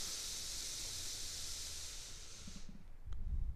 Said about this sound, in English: Last one together. Inhale through our nose.